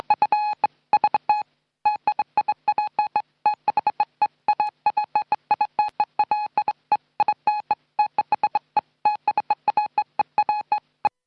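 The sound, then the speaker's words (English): Electronic beeping from the Tweetmatic 1200, an ancient piece of equipment, rattles off many short tones like telephone keypad dialing in a fast, stuttering, irregular rhythm for about eleven seconds, with no voices. “We love to activate the ancient piece of equipment known as the Tweetmatic 1200. And it sounds a little something like this.”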